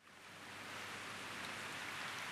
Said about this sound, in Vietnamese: chiều mưa, những giọt mưa rã rít rơi từ trên mái lá, từ những lá cây tạo thành một âm thanh đều đều